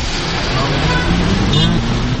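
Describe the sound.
Heavy road traffic heard during a car ride through congested streets toward Zafar. A dense, steady roar continues without a break while people talk over it.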